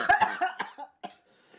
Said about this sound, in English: I'm laughing. Do I need to call? But it turned into a cough.